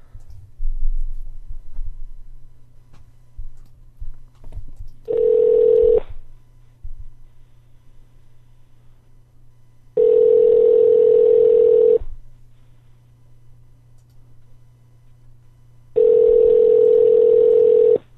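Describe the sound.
Ringing tone of an outgoing Skype call on a PC: three long, steady, mid-pitched tone bursts separated by pauses, over a low background hum.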